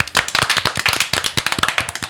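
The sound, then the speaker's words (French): Applause from a studio audience on a TV set welcoming a guest: a dense run of quick, sharp hand claps, steady and fairly loud throughout, with no voices. “Alors, un tonnerre d'applaudissements pour accueillir notre Anna Wintour favorite pour parler de marketing.”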